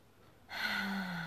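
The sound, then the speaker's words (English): A single deep breath drawn in, one steady, airy inhale lasting under a second, heard alone without talk. “I want to take a moment to take a deep breath together right now.”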